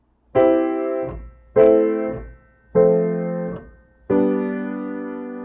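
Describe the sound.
Four sustained chords play a 1-6-4-5 doo-wop progression, each struck cleanly and left to ring and fade before the next, with evenly spaced changes and no voices.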